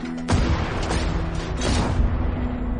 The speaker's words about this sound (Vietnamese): Những viên đạn màu vàng từ nòng súng địa ngục hỏa shotgun bắn liên tục ra.